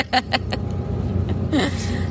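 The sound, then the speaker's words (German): Engine rumble and road noise inside a moving bus, a steady low drone with brief voices and a little laughter over it. “Naja, jetzt sitzen wir jedenfalls im Bus. Was auch noch so eine kleine Tortur ist.”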